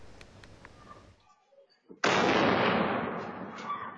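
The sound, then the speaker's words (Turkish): A blast on a street in Suruç, Şanlıurfa, where children were playing: low, quiet ambient noise, then a sudden loud burst about midway that roars and slowly fades. “Önce patlama sesi geldi.”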